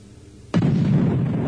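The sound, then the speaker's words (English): Explosion sound effect: a sudden loud blast breaks in after a brief quieter lead-in, then swells into a sustained, roaring low rumble that continues to the end. “I do. Had an explosion.”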